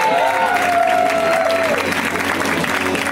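An audience applauds a stand-up comedian as he takes the stage. The loud, sustained clapping and cheering carries a whistle near the start.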